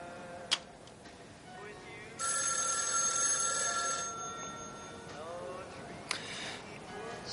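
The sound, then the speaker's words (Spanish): A telephone rings inside a family home with a single long electronic ring, a steady buzzing harmonic tone lasting about two seconds, framed by faint sharp clicks before and after. “se dirige al salón para contestar”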